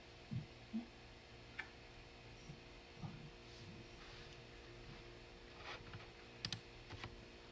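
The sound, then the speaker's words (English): Someone types on a computer keyboard, producing faint, sparse keystroke clicks at irregular intervals over a low, steady hum. “And if I learned how to type, it would be quicker.”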